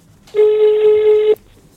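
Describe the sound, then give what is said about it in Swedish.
A telephone tone sounds as a call is placed: one loud, steady electronic tone of about a second, heard alone. “Vi ringer nu.”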